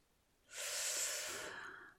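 Heavy breathing after exertion: one long, loud, breathy rush of air starts suddenly and holds steady for about a second and a half, then eases off slightly toward the end.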